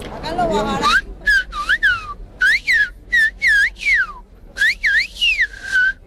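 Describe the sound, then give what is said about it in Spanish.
Silbo canario, the whistled language of the Canary Islands: a brief stretch of speech, then a person whistles many sharp, high phrases whose pitch glides up and down, separated by short pauses. “díganos algo en silbo. Vamos a ver, el silbo canario”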